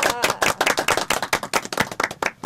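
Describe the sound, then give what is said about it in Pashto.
Applause for a correct quiz answer: brisk, fairly loud clapping from a few people, with many quick overlapping claps across a couple of seconds and no talk. “بالکل سم ځواب دی راکړ، چک چک ورته وهئ.”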